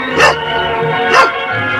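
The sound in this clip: A small dog barks twice, sharp, high yips about a second apart that stand out fairly loudly over a steady background.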